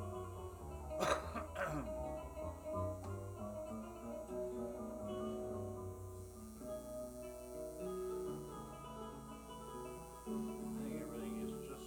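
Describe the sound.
Someone vaping coughs in the background at a live music night at a resort in Cape Coral, Florida. A few short, harsh bursts come early, over a steady electrical hum and soft sustained musical tones.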